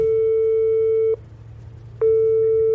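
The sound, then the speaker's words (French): Telephone ringback tone after dialing a number: a steady, pure electronic tone sounds, cuts out for under a second, then resumes, heard alone with no voices. “Et là, je fais le numéro de Coco.”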